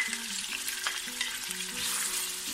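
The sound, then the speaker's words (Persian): Diced onion and meat sauté in oil with a steady, dense sizzle and crackle. Stirring scrapes cut in and out, and the sound stays continuous and fairly quiet with no talk. “و پیاز و گوشتمون رو با هم تفت میدیم.”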